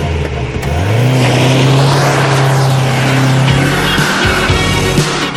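A rented limousine pulls away toward a school dance, its engine loudly revving up to a steady roar with tires squealing, then the engine note drops near the end.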